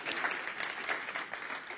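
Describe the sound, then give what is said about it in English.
A few people in a church audience clap during a morning service, giving light, scattered, soft applause for a brief moment. “Some people want to clap for you. Not everybody, though. It's just a couple.”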